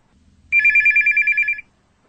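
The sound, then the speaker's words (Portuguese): A telephone rings in a single loud, rapidly trilling burst of about a second, bright and high-pitched, standing alone against near silence before and after. “Bem, vou ligar para o Jonas, meu irmão.”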